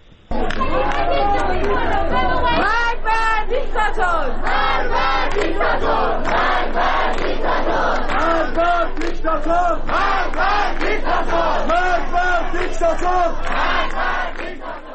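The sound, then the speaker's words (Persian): A protest crowd at the University of Kurdistan chants loudly in rhythmic unison, many voices shouting together in repeated bursts with little pause, continuous from start to end. “تحسن و اعتراض در دانشگاه هم ادامه داشته. یک صدا هست از دانشگاه کردستان، اون صدا رو هم بشنویم”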